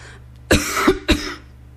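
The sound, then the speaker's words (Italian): A person coughs twice, two rough, throaty bursts a little over half a second apart, loud against a quiet background. “Tossisco?”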